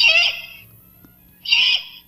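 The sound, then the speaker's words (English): Eastern screech owl calls: two short, high-pitched, quavering bursts about a second and a half apart, with quiet between them and no talk. “Anybody know what that is? That's an Eastern screech owl.”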